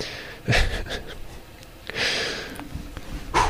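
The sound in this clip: Deep breathing: a few loud, breathy inhales and exhales, including one long, drawn-out breath in the middle.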